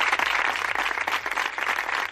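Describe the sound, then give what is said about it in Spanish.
Applause at sports training grounds and sports halls in Spain after a minute's silence for coronavirus victims. The hand clapping is dense and sustained, with a loose pulsing rhythm throughout. “Estas palmas que han sonado en diferentes campos de entrenamiento, de primera, de segunda, en diferentes polideportivos, en diferentes centros de alto rendimiento”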